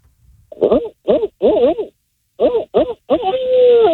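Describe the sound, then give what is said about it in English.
A person imitates a barred owl's call with their voice, giving two rhythmic groups of hooting syllables and ending on a long, sustained final hoot. “I got to hear that Bard Owl call before we let you go.”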